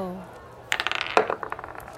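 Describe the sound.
Dice rolled onto a table during a tabletop role-playing game, giving a quick clatter of many sharp clicks and bounces that thin out over about a second, after a brief voice at the start.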